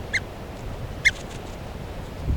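A bird calls twice while held in the hand before release: two short, sharp, high calls about a second apart, faint above a steady background hiss.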